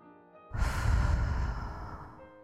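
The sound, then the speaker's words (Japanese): Deep breathing during a guided meditation, in through the nose and out through the mouth: a soft, airy rush that swells after half a second and slowly fades over about one and a half seconds, with no talk. “鼻から吸って、口から吐いて、ラストもう一回。”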